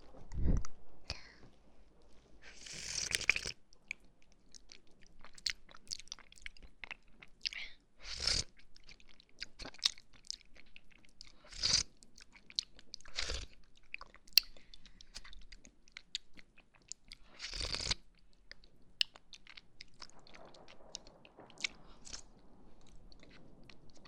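Chewing and biting while eating yogurt: several sharp, crunchy bursts spaced unevenly among soft, quiet mouth noises, with no talking.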